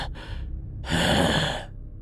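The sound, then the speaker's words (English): A person vocally imitating breathing: a short breath followed by a longer, airy, rasping breath, heard alone without speech. “you hear maybe faint breathing coming from 15, 20 feet away, just kind of rhythmic”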